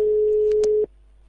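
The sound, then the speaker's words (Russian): A telephone ringback tone as a call is placed: one steady, mid-pitched beep lasting under a second, with a couple of faint clicks during it, then silence. “Ну хорошо, сейчас позвоним, кто возьмет трубку.”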